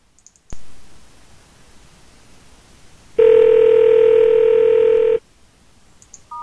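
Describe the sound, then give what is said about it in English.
A telephone call dialed to a voicemail number: a click opens the line into soft hiss, then a loud, steady tone holds for about two seconds before cutting off, followed by a brief beep. “let me see if I can let you hear what happens when you call your Google Voice number.”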